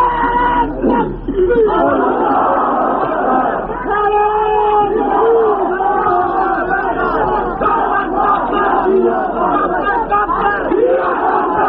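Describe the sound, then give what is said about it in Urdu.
A large crowd chants religious slogans loudly in unison at a gathering, keeping up a dense, sustained roar of many voices with repeated chanted phrases that stays loud from start to finish. “نعرہ تکبیر آواز سے نعرے لگائیں”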